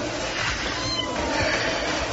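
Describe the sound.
A cat meows faintly, a short wavering call partly buried under a dense, steady background noise.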